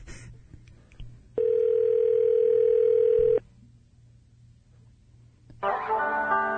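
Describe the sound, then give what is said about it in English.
A telephone line gives a loud, steady dial tone while a number is dialed. The tone holds for about two seconds and then cuts off sharply. A burst of brighter tones follows near the end. “I'm dialing.”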